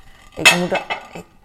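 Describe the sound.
Plates and cutlery clatter as a plate is taken in a kitchen during a morning routine. A short, bright cluster of a few metallic clinks and knocks sounds on its own.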